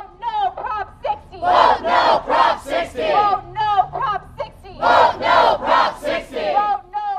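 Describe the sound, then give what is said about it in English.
About a hundred adult film performers march in Los Angeles, chanting in protest of Proposition 60: loud, rhythmic group shouts repeat in regular bursts with short gaps between them. “that chanting you hear comes from about 100 adult film performers who marched in protest of Proposition 60”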